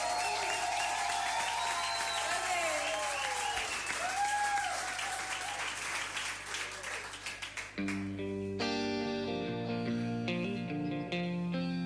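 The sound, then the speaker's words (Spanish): Audience applause for a performer at a live show: dense, loud clapping holds for several seconds before music starts up. “Un aplauso muy fuerte para la extraordinaria Luz Galli, ¿sí?”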